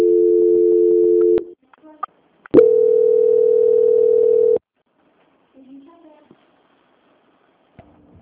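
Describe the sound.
Steady electronic telephone line tones while a call is being transferred. Two long, level hums are separated by a short gap of clicks, and faint scattered noise follows the second tone.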